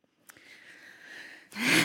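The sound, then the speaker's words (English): A big breath drawn in, a long steady rush of inhaled air lasting over a second, ending in a louder, harsher burst of breath, with no voices. “big breath in.”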